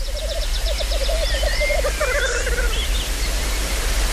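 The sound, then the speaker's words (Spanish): Male birds displaying at a lek give a dense, steady run of bubbling, rolling calls. Midway, higher and sharper threatening notes join them, all over constant low background noise. “Y los machos, pues como los urogallos, se reúnen en LEC, en grupos donde cada uno se exhibe para que las hembras vengan y elijan al mejor. Y eso es lo que estáis oyendo.”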